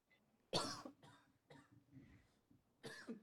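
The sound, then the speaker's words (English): A few dry coughs, faint and spaced by short pauses, the first one sharpest and the later ones softer and rougher. “He's about to be sick and then leaving the podcast. He's just pre-framing with some fucking coughs.”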